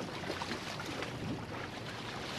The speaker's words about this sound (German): Sanft kommt eine der 4 Basler Rheinfähren an der Anlegestelle an